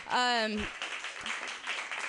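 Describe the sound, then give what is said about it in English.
Applause from a comedy club audience. A brief spoken voice is followed by a fairly soft, even patter of clapping that carries on to the end. “Let's get a round of applause for my boobs right now.”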